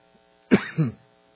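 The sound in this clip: Throat clearing from a dry throat: two short rasping bursts in quick succession, fairly loud against near silence.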